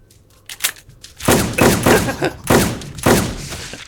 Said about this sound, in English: which is a Benelli, which has more rounds. And it sounds like that.